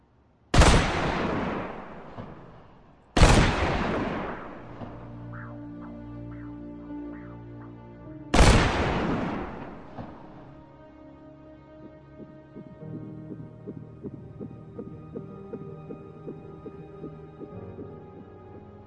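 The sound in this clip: Gunshots during shooting practice: three loud, sharp cracks at irregular spacing, each followed by a long ringing decay, with a low sustained hum between and after them.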